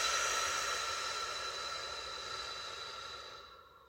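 A long, slow exhale during a breathing exercise: a steady, airy breath that holds for several seconds and then fades out near the end, with no talk over it.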